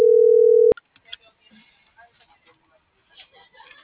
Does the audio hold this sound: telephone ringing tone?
yes